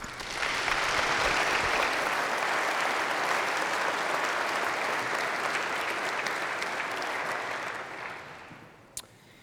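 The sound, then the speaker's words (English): Audience applause, a dense and steady wash of many hands clapping that holds for about eight seconds, then tapers off quickly to near silence. “Let's give her a hand.”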